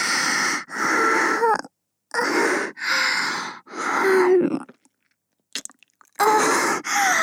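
Wet mouth nibbling and biting on an ear: several close bursts of breathy, smacking, chewing-like mouth noise separated by brief silences, with a few faint clicks in one longer gap.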